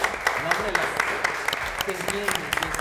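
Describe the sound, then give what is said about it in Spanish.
Audience applause at the close of a program, a dense, steady patter of clapping heard beneath people talking. “un fuerte aplauso al público”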